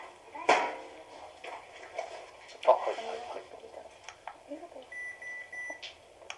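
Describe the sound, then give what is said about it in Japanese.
A temperature-check thermometer beeps at a hospital reception: one steady, high electronic tone near the end, preceded by faint clatter and muffled background noise. “これ検温の音ですよ。”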